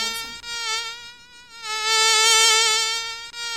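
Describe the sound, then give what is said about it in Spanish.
A mosquito's high, thin whine: a steady buzz rich in overtones that swells and fades as the insect circles, dipping briefly twice and loudest in the second half, heard alone. “El mosquito se divertía mientras tanto, zumbando y dando vueltas y vueltas”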